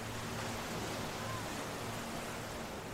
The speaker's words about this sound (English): this is intended to be the sounds of waves traversing across Jabal Tariq, the Straits of Gibraltar, from Africa to Europe